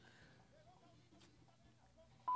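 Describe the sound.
An answering machine tone sounds before a message is left: a steady, pure electronic beep starts abruptly at the very end after a stretch of faint, murmuring background noise.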